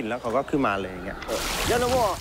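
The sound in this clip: Water splashing and sloshing as an elephant bathes, a broad hiss of wash that starts partway through and continues to the end beneath a speaking voice.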